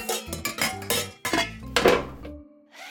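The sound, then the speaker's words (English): Metallic clatter of a sheet of chocolate chip cookies being pulled out of an oven, a quick series of clanks and rattles from the baking pan, fairly quiet, tailing off into a brief softer sound. “let's get over to Bobby's room where I'm about to pull a sheet of Primo chocolate chip cookies out of the oven.”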